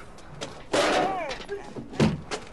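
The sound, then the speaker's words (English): A shoulder shoves against a door of a filthy house until it is forced open, giving dull heavy thuds. A person's voice sounds between the impacts. “pushes on the door with his shoulder and manages to break in”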